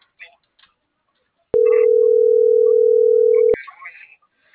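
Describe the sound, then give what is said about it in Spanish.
A steady telephone dial tone from a phone being dialed sounds for about two seconds. It is cut off cleanly at both ends, with faint speech before and after it. “Estoy marcando.”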